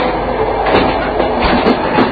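Rumble of a Russian passenger train heard from inside a carriage: a continuous, fairly loud roar with a few brief surges of rattling, with no talk.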